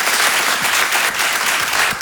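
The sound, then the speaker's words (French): A stand-up comedy audience applauds with dense, steady clapping that holds at an even loudness throughout and dips slightly at the very end. “Applaudissez ceux qui ont des filles peut-être.”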